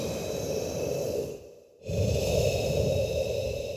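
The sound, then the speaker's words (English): A deep, airy breath drawn to ease frustration, a steady rushing breathing sound that fades briefly near the middle and then swells again, fuller and louder, to the end. “I feel myself getting frustrated. No problem. I take a deep breath.”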